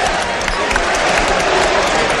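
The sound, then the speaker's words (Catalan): Basketball players in Badalona applaud their home fans with dense, steady clapping that continues at an even, loud level. “Són els aplaudiments dels jugadors del Joventut a la seva afició. Impressionant, eh?”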